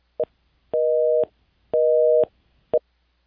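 Telephone busy tone after a call is disconnected: a clipped short beep, two half-second mid-pitched tones, then another short beep, evenly spaced with silence between and no voices.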